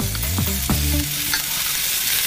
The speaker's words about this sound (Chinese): 接下来锅中直接放入第二份腊肉片，再倒入炒过的茨菇片，加少许清水，小火焖煮约两分钟收汁